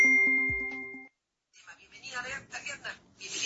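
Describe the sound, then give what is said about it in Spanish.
Voicemail beep: a single steady electronic tone lasting about a second and fading slightly, then a brief silence before a person begins speaking. “Buzón de voz.”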